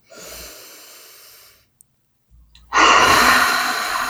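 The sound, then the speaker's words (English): A deep breath taken during a guided tapping self-acceptance exercise: a soft, airy inhale, a short silent pause, then a louder, breathy exhale that trails off. “Good. Deep breath.”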